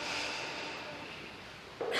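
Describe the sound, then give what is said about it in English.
A deep breath drawn in during a guided meditation, a steady airy hiss that holds for nearly two seconds and turns briefly louder right at the end, with no talk. “Please take a few full breaths right now, a deep inhale,”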